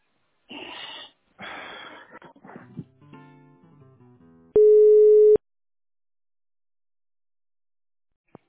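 A single steady telephone line tone, about a second long, plays while a call is being transferred, after a stretch of breathy rustling and a few faint tonal bits, then the line goes quiet.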